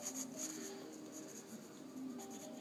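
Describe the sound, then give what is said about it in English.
Drawing on paper: faint, continuous pencil scratching that comes in light, uneven strokes, with no voices. “Are you drawing them?”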